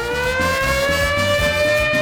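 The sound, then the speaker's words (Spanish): A siren sound effect used in a radio prize promotion: a steady, loud wailing tone with a slight upward glide in pitch, held without a break over faint low pulsing beneath. “de la mano con nuestra sirena premiadora Olímpica”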